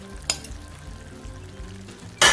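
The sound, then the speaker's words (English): Onions and mushrooms sizzle in a pan with half-cooked steak medallions, giving a soft, steady crackle of frying with a few small pops. A louder burst of sizzling comes at the very end. No voices. “We're going to go ahead and add the onions and mushrooms back in.”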